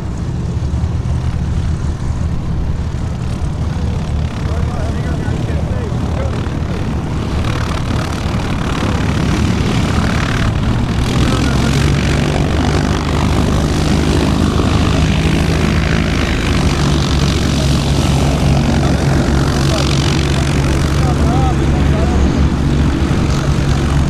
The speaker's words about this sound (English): And it's the only aircraft that I know of that Ford ever built.